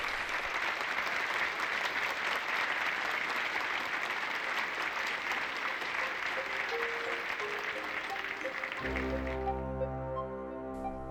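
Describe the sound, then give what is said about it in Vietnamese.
Sustained audience applause from a crowd at a talk on women under abusive men, steady dense clapping for about nine seconds before it abruptly stops. “Tiếng vỗ tay vang dội tưởng như kéo dài bất tận”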